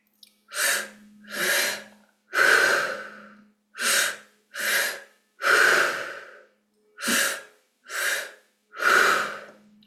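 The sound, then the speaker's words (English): Loud, forceful breathing from a continuous breathing exercise, in and out through the mouth. Nine rushing breaths come in a steady rhythm, grouped as two shorter breaths followed by a longer one, three times over, with no talk. “And then let all the breath out. You will continue this pattern without pausing at the top or the bottom in one continuous cycle. Here's what it sounds like.”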